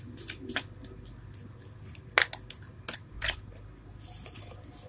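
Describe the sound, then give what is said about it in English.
Cards being drawn from a deck during a spiritual card reading give a quiet sequence of sharp snaps, flicks and soft slides, irregularly spaced and without talk. “So I'm going to pull a few cards.”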